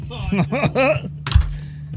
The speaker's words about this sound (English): First roll of the session. Sweet dice. Let's go. Oh, it's cocked. I'm doing it again.